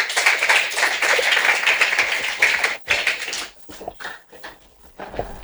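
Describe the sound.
Applause from a seminar audience for a doctor presenting on fighting drug trafficking: dense, steady clapping for about three seconds, then thinning into scattered, uneven claps that fade out.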